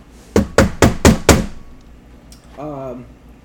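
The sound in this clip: Knocking on a door: five firm, rapid raps in a steady rhythm, each a loud, hollow thud, followed after a short pause by a brief spoken voice.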